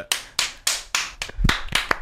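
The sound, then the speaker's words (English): A few people clapping on a comedy show: sharp, separate claps, evenly spaced at first and then coming quicker and more ragged, loud and crisp with no talk over them. “I thought we were just clapping the segment.”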